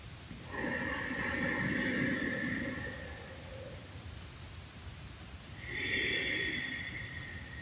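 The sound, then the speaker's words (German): Deep belly breathing during a guided relaxation exercise: a long, airy breath of several seconds, a quiet pause, then a second shorter breath, all soft and unhurried. “indem das beim Einatmen die Bauchdecke sich hebt, mit dem Ausatmen die Bauchdecke wieder senkt. Ein zweites Mal.”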